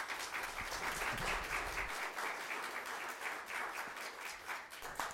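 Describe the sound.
Applause welcoming a guest preacher to the pulpit at a church service, a soft, even wash of many hands clapping that continues steadily throughout, with a low rumble at the start.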